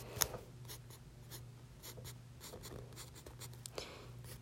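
Pencil drawing eyes on paper: many short, faint scratchy strokes come in quick, uneven bursts, with a couple of slightly sharper taps among them.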